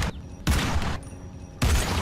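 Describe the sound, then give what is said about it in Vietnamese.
Gunfire in a dramatized scene comes as three loud, sharp bursts: one at the start, another shortly after and a third after a brief quieter gap. Each burst is a crackling volley with low booming weight. “Mấy tiếng súng chát chúa vang lên đì đùng.”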